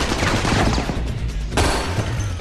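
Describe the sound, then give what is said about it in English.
Automatic rifles fire in a shootout. Loud, dense bursts of rapid shots crackle and overlap almost without a break, with a brief dip partway through before another sharp burst. “He dodges among the pillars, returning fire as he tries to escape.”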